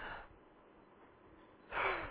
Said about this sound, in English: When I exhale, count how long this takes for me to exhale.